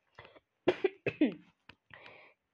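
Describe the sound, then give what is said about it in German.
A person coughs after choking on something swallowed the wrong way: a few short, harsh coughs in quick succession, then a rougher throat-clearing rasp. “Hm, Mann, Ich habe mich verschluckt.”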